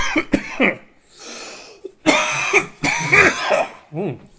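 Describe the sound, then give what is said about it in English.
A few harsh coughs and a bout of throat clearing break out, loud and abrupt, with short breaths and pauses between them. “excuse me, I need a cough button. Sorry, let me take a drink of water.”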